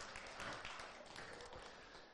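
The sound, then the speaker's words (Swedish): Applause for the technicians rises from a crowd as a brief, steady wash of clapping, fairly faint and lasting about two seconds. “En applåd för de här teknikerna.”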